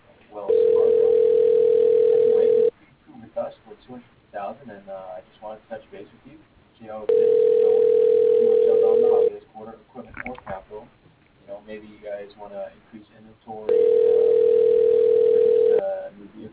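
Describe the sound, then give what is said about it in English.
Telephone ringback tone heard while a call is transferred: three long, steady, mid-pitched buzzing tones at even intervals, with a voice talking between the rings. “Please hold while your call is being transferred to David Adelstein.”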